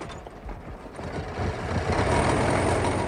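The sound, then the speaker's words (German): A car engine runs steadily with a rough, low rumble that swells slightly after the first second and then holds at an even level. No voices are heard. “Der Motor läuft”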